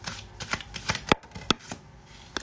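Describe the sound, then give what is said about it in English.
Tarot cards being shuffled and drawn, a quiet run of soft riffling flicks and taps with a couple of sharper snaps in the middle. “Let me pull Pam's card first.”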